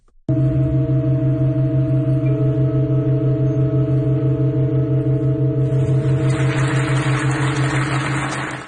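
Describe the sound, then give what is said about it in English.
A pipe organ in Halberstadt, Germany, holding a loud, steady sustained chord with a pulsing beat in its low notes, then changing from seven to eight notes as a new tone and an airy hiss enter toward the end. “Yesterday, the organ performed a rare chord change and went from playing seven notes to eight.”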